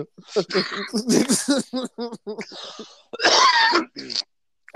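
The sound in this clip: A rough, rasping throat clearing bursts out between stretches of lively talk, followed by more speech.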